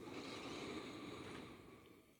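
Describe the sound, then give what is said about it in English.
A long, full inhale through the nose makes a soft, steady airy hiss, fairly faint, that holds evenly and then tapers off near the end. “take a long, full breath in through the nose.”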